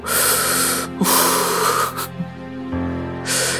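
Labored, gasping breathing, with a few long, heavy, rasping breaths that hiss loudly, separated by short pauses.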